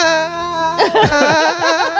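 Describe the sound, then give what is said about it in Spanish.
A person crying loudly: a sustained, strained tone breaks into wavering, quavering sobs that rise and fall in pitch. “Sal del estudio y llora fuera. Vale, llora fuera porque el programa al final, vale, los oyentes no tienen por qué soportarlo.”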